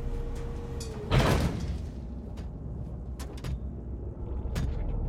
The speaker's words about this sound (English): The two door panels of the transport fall open either side of him.